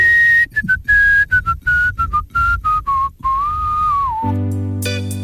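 Human whistling of a short melody, a run of many clear high notes in a choppy rhythm that step gradually downward in pitch before a longer gliding note. Sustained low musical tones then come in underneath at the end.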